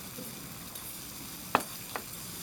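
Steady sizzling of a flipped Hiroshima-style okonomiyaki frying on a griddle, a continuous bright hiss broken by two brief sharp clicks near the end, with no voices.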